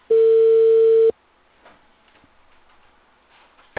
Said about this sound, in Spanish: se cortó la llamada